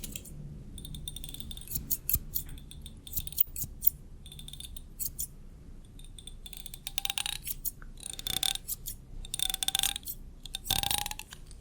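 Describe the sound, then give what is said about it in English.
Scissors snip through hair in an ASMR haircut, with many quick, crisp clicks in uneven bursts that grow denser toward the end, quiet and with no talking. “Scissor snip. Snip, snip, snip.”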